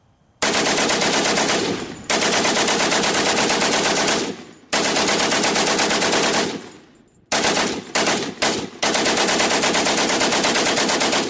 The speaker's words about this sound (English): which the Germans had occupied, which also meant they had machine guns on the hill. Those nasty little things that go.